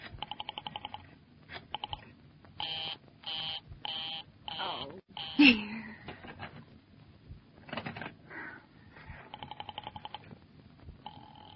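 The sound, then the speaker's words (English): Telephone dialing: bursts of rapid clicks and buzzing tones, then a louder thump about halfway through and another run of rapid clicks at the end. “I've been dialing Murray Hill 70093 now for the last three quarters of an hour,”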